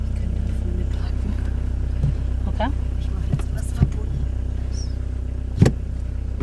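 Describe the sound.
A car engine hums low and steady as the car reverses into a parking spot, with a few faint clicks and soft knocks over the drone.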